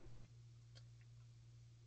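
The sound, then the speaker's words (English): A pump runs as a low, steady hum that starts after a brief moment and holds at a constant pitch, faint throughout, with a few light ticks above it. “oh, there goes the pump. It's almost time to cut it. Is that too loud? Can you hear the pump?”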